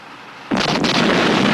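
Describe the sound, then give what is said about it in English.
A tank cannon shell explodes and blows a building's roof apart in a fireball in a war scene: a sudden loud blast, then a sustained, heavy rumbling roar of fire and debris, with no talk. “The whole roof explodes in a fireball.”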